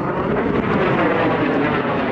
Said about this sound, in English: An Air Force fighter jet circles above Bagram Air Base north of Kabul, home to some 6,000 U.S. troops.